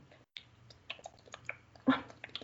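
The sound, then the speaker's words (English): An imitation of chaotic ASMR: scattered taps, clicks and rubbing noises close on a microphone in an irregular, jumbled rhythm, with one louder rustling burst near the end. “And she'll like tap and like rub the mic and stuff. Yeah. And it's just really chaotic.”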